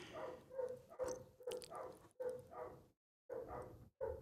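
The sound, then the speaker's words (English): Two dogs barking together in repeated bursts of sharp barks. The bursts are separated by brief gaps, with one longer pause near the end. “apologize for the dogs. I know it's showing up. I know it's picking up on the microphone. They're both barking now. There might be somebody out front.”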